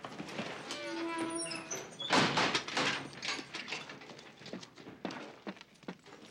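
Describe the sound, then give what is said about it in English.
A jail cell door is slammed and locked: a heavy metallic clang followed by a run of lighter rattling clanks. “The men drag Dillon into the lockup. Hold him! And lock him in one of the jail cells.”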